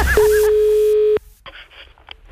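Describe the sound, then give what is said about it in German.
A telephone signal tone sounds as one loud, steady, mid-pitched beep lasting about a second, then cuts to faint low noise. “Telefon.”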